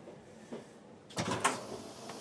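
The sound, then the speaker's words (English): A jumpy door next to the speaker clatters when they move. After a quiet stretch, a short cluster of rattling knocks and bumps comes, then it settles into a faint tail. “Very jumpy door next to me. All I have to do is move. And it does that.”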